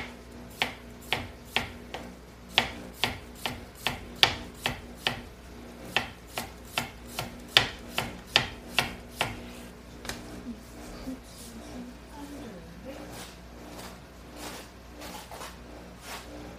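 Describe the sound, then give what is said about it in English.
Knife chopping ingredients for tzatziki on a board: a quick, steady run of many sharp, crisp cuts for about ten seconds, then fainter, sparser taps. “Excuse me for the noise. Let's make some tzatziki.”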